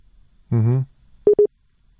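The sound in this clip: A telephone line gives two short, identical beeps after a call is cut off, following a brief single-word voice.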